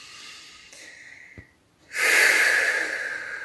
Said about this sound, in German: Nimm einen tiefen Atemzug und lass dich mit dem Ausatmen ruhig ein Geräusch machen.